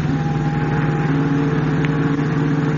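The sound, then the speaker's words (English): A big sedan speeds along a fog-swept waterfront, heard as a continuous, even engine drone with a low hum that stays level throughout and has no talk. “Clinging to the rear bumper of the big sedan in which Gloria Garrett rides with an unknown man, Batman and Robin are carried swiftly along the fog-swept waterfront.”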